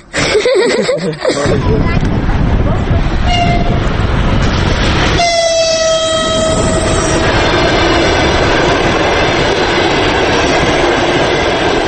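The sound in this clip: Train on the railway at Maimak station in the Talas valley, with a loud continuous rumble of rolling wagons and a clear horn blast sounding partway through, the noise staying heavy and steady to the end.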